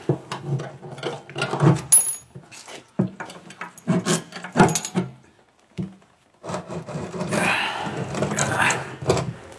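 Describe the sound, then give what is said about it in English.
Wood rasps and creaks as a turnscrew works at the screws of a coffin lid by candlelight, coming in irregular scraping, rubbing bursts with a short pause before a longer stretch of steady grinding. “Another search in his bag, and he took out a turnscrew. What are you going to do? To open the coffin.”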